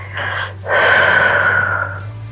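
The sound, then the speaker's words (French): A deep breath drawn in through the nose, then after a brief pause a long, slow, steady exhale through the mouth, like blowing through a straw, breathy and fairly loud over a faint low hum. “Faites une grande inspiration par le nez d'une expiration profonde et calme par la bouche, comme si vous souffliez dans une paille.”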